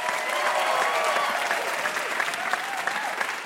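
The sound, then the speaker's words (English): Audience applause for contestants on a trivia game show: dense, steady clapping that stays even and full from start to finish. “Give a hand for Christina Chacko and Mark Johnson.”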